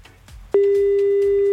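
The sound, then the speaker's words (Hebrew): Telephone line tone while dialing a friend: one loud, steady, pure tone holding for about a second before stopping, with faint background noise around it. “אנחנו מחייגים לשניאור, חבר שלך. שהוא עונה לטלפון”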